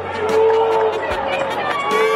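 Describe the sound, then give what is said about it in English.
Crowd at the Cubs convention voicing displeasure, a loud mass of drawn-out, droning voices with scattered shouts, sustained throughout without pause. “What do you have against the Marquee Network? Believe me, you won't be booing about that in a year.”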